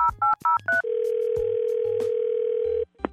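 A telephone being dialed: four quick touch-tone beeps, followed by one long, steady line tone of about two seconds that ends with a short click.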